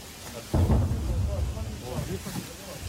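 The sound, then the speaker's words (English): Artillery fired in the distance near a front line: a single deep boom that rolls into a low rumble lasting a couple of seconds, with voices talking over it. “I don't know if you heard that in the background, but that was artillery being launched from our side.”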